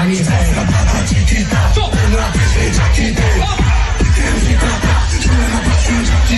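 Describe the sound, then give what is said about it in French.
Crowd noise from a concert audience in a recording: a loud, dense, continuous roar of many voices cheering and calling out, with no pause across the whole stretch. “En fait, on n'entend pas Axel, mais on entend le public. Il y avait une osmose.”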